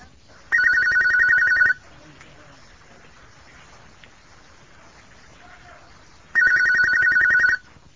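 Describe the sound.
An electronic telephone ringtone sounds before a call-in religious question-and-answer session. It comes in two bright, warbling bursts of about a second each, separated by several seconds of steady low hiss, with no talking.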